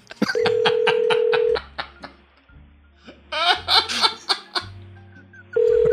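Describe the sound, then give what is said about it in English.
Telephone keypad tones as a toll-free number is dialed, a quick string of beeps over a steady tone, followed by a few bursts of laughter and the tone returning at the end. “All right, we're ringing.”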